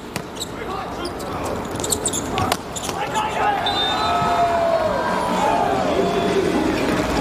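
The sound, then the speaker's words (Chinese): A volleyball serve by Gomolka in a Slovenia match: a couple of sharp ball impacts stand out over steady crowd noise, while a commentator talks throughout. “戈莫尔卡来发球”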